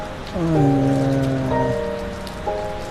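Rain falls as a dense, even hiss through the whole clip, with sustained tonal notes layered over it.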